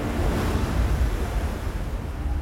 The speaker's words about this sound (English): The wind picked up.